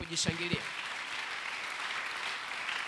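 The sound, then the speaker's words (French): A church audience applauds with a steady wash of clapping that stays fairly faint throughout. A brief voice can be heard at the very start. “Est-ce que vous pouvez vous acclamer?”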